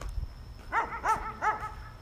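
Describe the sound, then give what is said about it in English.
Dog barking: three sharp, tonal barks in a quick run near the middle, with a softer low thud before them against a quiet background. “Do you ever find yourself walking at night with a scarf after eating a bowl of Lucky Charms and a dog's barking at you?”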